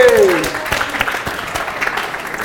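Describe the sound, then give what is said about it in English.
A live recording audience applauds for the cameraman in a short burst of clapping. A brief voice sounds at the start, and the claps then thin out and fade. “Everyone make some noise for Racist Callum, please.”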